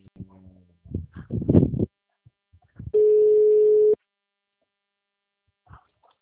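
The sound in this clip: A telephone line tone after a call cut out: one steady, mid-pitched electronic beep lasting about a second, preceded by muffled handling noise and brief voice fragments, then near silence.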